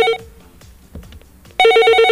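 A telephone rings for a caller to a radio call-in show. A short burst of bright electronic trilling is followed by a near-quiet pause, then a louder, sustained ring.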